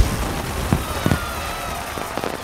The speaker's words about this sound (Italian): Solo i fuochi d'artificio riescono a distrarre i festaioli dai loro piatti e dai loro traboccanti